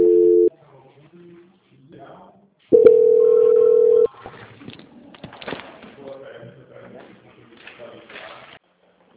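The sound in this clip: Telephone tones sound during a call transfer: a short steady tone is followed by a longer, louder one of even pitch. Talk then follows.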